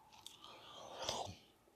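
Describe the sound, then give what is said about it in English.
Soft, faint chewing of a cake-like treat, with moist mouth sounds and light smacking close to the mouth, continuing steadily without talk. “This thing tastes like it's so good. It's like a cake.”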